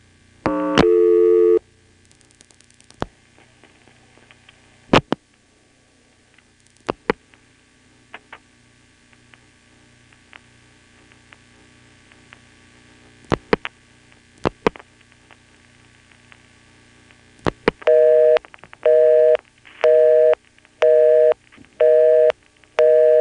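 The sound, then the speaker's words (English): A telephone busy signal sounds after dialing into a trunk line: scattered sharp clicks over a low steady hum give way to several evenly spaced on-off beeps near the end. “We dialed 3111 and got a busy signal.”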